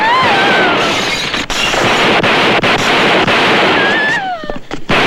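Shotgun blasts ring out during a shootout with police at a house, several sharp cracks punching through dense, continuous chaotic noise and whistling tones, with a few loud reports spread across the scene.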